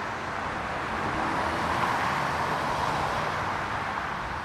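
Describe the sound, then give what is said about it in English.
Traffic whizzing along the 10 freeway in Los Angeles, where it runs under 4th Street to meet the Pacific Coast Highway, forms a steady, broad, unbroken roar of tires and engines with no distinct passes standing out. “Yes, that's the sound of traffic whizzing. Can you believe it in LA? Whizzing along the freeway, specifically the 10 freeway or the Santa Monica freeway, flying under 4th Street to connect to the Pacific Coast Highway.”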